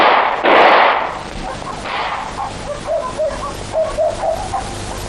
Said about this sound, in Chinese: 开枪啊！开枪啊！